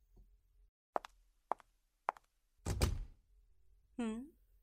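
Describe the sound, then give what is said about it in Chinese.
A door is pushed shut: three short, sharp thuds in a row, then a heavier, fuller clunk as it closes, followed by a brief murmured vocal sound. “嗯，我为什么要把门关上？嗯，因为我要确保没有人会打扰到我们。”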